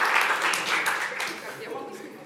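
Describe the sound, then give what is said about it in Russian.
Audience applause at a magic trick performance, a soft, dense patter of many hands that fades gradually, with a voice emerging near the end. “Давайте похлопаем.”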